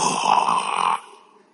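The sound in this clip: A voice imitates a snore with a single drawn-out, rasping nasal breath that lasts about a second and then trails off quickly.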